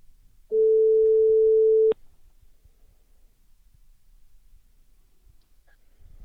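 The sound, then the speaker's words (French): A single steady ringback tone sounds on an outgoing telephone call. It is a clean, mid-pitched electronic tone lasting about a second and a half, followed by near silence. “On l'appelle tout de suite.”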